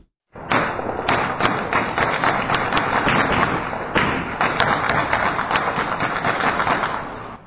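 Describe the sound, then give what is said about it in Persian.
Gunfire from light and heavy weapons at night in Sheberghan, Afghanistan, fired in celebration after a political agreement. Dense, continuous rapid shooting, punctuated throughout by sharper individual cracks. “این صداهای فیر اسلحه سبک و سنگین بود که شب گذشته پس از امضای توافقنامه بین دو دکتر محمد اشرف غنی و عبدالله در شهر شبرغان صورت”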